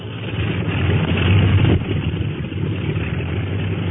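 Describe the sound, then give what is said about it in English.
Steady, loud droning of flying boat engines warming up. A dense low rumble swells a little midway and then eases back to an even running note, with no voices. “Say, they're winding up the clipper motors.”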